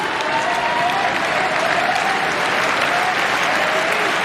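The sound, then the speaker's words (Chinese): A tennis crowd applauds a player competing at home. The clapping is sustained and dense, holding a steady, even loudness throughout without breaks. “现场的观众也都在给主场作战的选手报以掌声，给他加油。”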